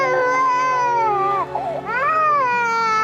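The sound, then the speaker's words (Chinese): A child crying in one continuous, high wailing cry that dips and breaks briefly midway, then swells again with a wavering, rising-and-falling pitch. “孩子在哭呢。”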